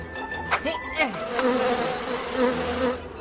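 Bees buzz in a steady, continuous drone with a wavering pitch that carries through the whole few seconds.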